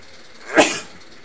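A single loud sneeze bursts out sharply and fades quickly, standing alone against a quiet background.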